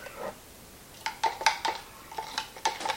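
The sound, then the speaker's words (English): Light clinks and taps of a stir stick being rinsed off while mixing a vinegar-smelling photo fixer solution. Several sharp knocks with a brief ringing tone come at an irregular pace over a soft background, with no talking. “Rinse off the old stir stick.”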